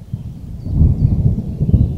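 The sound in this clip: Thunder from an approaching summer thunderstorm under dark rain clouds over a rural writer's farmstead: a deep, continuous rolling rumble that swells after the first moments and stays heavy to the end, with no voices.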